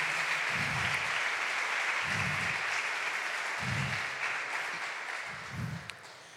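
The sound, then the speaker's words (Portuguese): Congregation applause at a church inauguration evening service: dense, steady clapping that holds, then gradually fades toward the end. “Nós aplaudimos a você em nome do Senhor Jesus. Aplauda esse ministério em nome de Jesus.”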